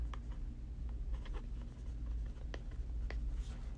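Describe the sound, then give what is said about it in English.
Handwriting with a pen on paper: faint, irregular scratching strokes and small taps that run continuously over a steady low background hum. “I gotta write this out now. Hold on a second.”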